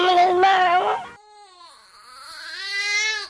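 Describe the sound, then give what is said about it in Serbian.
A 19-day-old newborn boy whimpers and cries, with a loud, sustained cry at first, a softer dip, then the wail building again in strength. No other sounds are evident. “ovo slatko kmečanje je plač moje bebe”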